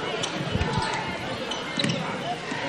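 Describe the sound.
A basketball dribbled on a court during a game: a few low, dull bounces partly buried under a commentator's voice and a steady wash of background noise.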